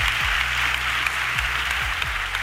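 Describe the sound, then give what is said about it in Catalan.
Applause for radio from the audience at an awards night: a steady wash of clapping across the whole clip, with low, repeatedly sliding musical tones underneath. “Un aplaudiment per la ràdio, o què? Visca la ràdio!”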